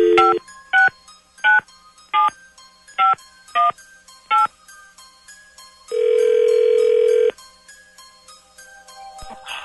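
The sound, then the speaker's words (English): Touch-tone telephone dialing gives seven short, evenly spaced beeps, followed after a pause by a single longer steady tone, with faint quieter tones in the background. “Dialing at random.”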